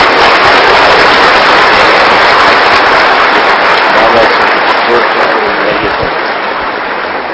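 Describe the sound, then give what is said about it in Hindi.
Crowd applause at a project inauguration, a dense, steady wash of many hands clapping that holds for the whole stretch and fades slightly toward the end. “आज वो team बाप दादा के सामने खड़ी है और बाप दादा के हाथों से वो प्रोजेक्ट का उद्घाटन कर रहे हैं। खूब ताली हो जाइए।”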